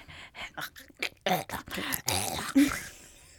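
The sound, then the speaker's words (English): A voice imitates loud, gurgling mouth breathing: a series of short rasping breaths building to a longer wet gurgle that trails off into quiet. “He was breathing loud, and every other breath sounded like gurgling. Ew, like he was a mouth breather. Ew, like what's he gurgling on? Like every other breath, so he was like...”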